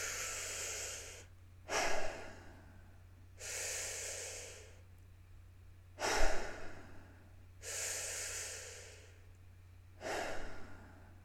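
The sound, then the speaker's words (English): Deep breaths drawn in and blown out slowly, a few full cycles of broad, airy rushes with short quiet gaps between them, and no talking. “Let's take some big breaths.”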